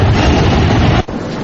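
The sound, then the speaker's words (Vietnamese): The Super Speed spaceship takes off with a loud, steady, broad roar that rushes without a break, then dips sharply for a moment before the roar resumes. “Nào, chuẩn bị, chúng ta sẽ cất cánh trong vòng 5 giây. 5, 4, 3, 2, 1, 0.”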